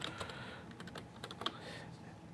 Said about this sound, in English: and I can enter a password.